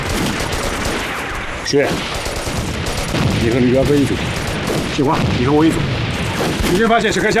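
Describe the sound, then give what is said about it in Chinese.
Enemy machine-gun fire in a wartime battle rattles loudly and without pause: dense, rapid gunfire with sharp crashes, and voices shouting over it. “鬼子动机枪火力太猛，我们得解决他”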